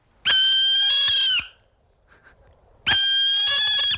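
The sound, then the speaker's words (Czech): A barn owl gives two long, harsh, raspy screeches, each held for over a second and separated by a quiet gap, loud and alone. “To je sova pálená.”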